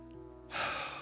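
A deep breath is let out in a long, breathy exhale that begins halfway through, over a soft, sustained tonal hum.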